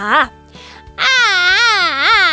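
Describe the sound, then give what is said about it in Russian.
A girl crying: a brief wail, a short pause, then a long wavering cry whose pitch rises and falls. “А зачем она плачет? Скучно ей.”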